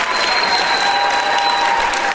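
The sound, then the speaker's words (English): An audience applauds a guest with steady, dense clapping that stays even and loud throughout, with no talking over it. “Give it up again for Miss Michaela Rand.”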